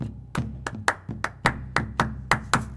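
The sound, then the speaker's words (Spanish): Palmas, rhythmic flamenco hand clapping: a steady run of crisp, sharp claps that repeats evenly throughout. “Las palmas, las palmas.”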